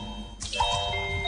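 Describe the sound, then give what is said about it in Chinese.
Water drips: a single drop lands with a sharp, splashy onset, then a short, bright, ringing plink, over a faint steady background. “这是水滴的声音”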